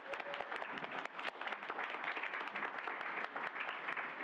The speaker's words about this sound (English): You guys have been an amazing audience, so you're going to give yourselves a hand first.